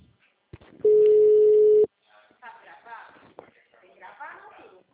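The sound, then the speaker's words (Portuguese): A telephone call's ringing tone sounds as a single steady mid-pitched tone lasting about a second, after a brief click, and then a voice begins talking. “Ahí, ahora llamo.”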